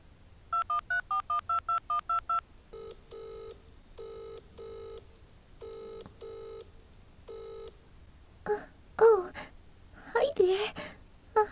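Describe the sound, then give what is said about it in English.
Touch-tone phone dialing sounds as eight rapid, evenly spaced beeps, then a slower series of repeating tones. Brief voice sounds and whimpers follow at the end. “He gave me his number. I'm going to call him.”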